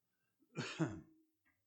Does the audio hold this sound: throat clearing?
yes